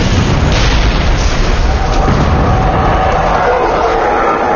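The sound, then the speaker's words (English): Pipe bombs exploding: a loud, dense, continuous booming roar of blasts that runs through the whole clip without a pause. “More pipe bombs dropped around the howler in a precise pattern. The cyborg was impressed. The blasts had been way too powerful for black powder, gunpowder, or even pre-dark dynamite.”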